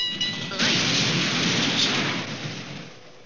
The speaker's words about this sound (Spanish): Bueno, supongo que tampoco has de creer que me arrolló un tranvía.